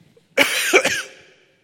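A single throat clearing, a harsh raspy burst with a second push inside it, fairly loud and alone, fading out quickly.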